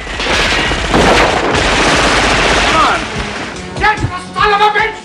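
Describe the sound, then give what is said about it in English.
Gunfire in a bar as a man shoots from the top of the stairs: a dense, loud barrage of shots fills the first seconds, then thins to a few sharper separate reports, with voices near the end. “A man fires on him from the top of the stairs.”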